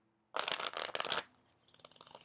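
Cards are shuffled as the deck is handled before being cut in half: a loud burst of rapid, papery riffling lasts about a second, then gives way to softer, patchy rustling as the cards settle.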